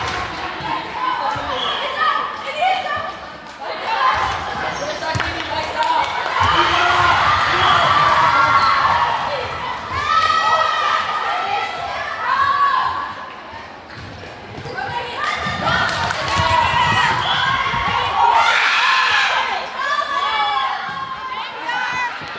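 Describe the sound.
Basketballs bouncing in a school gym during basketball and volleyball on a hot day: dull, repeated thumps mixed with crowd chatter, children's shouts and a voice talking throughout.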